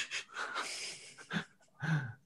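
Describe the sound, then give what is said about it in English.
A few breathy gasps after a pint of beer is downed in a pub. Sharp, airy exhalations come in short bursts, with the last two strongest, and there is no talk. “The third category then is the post-pint gasp”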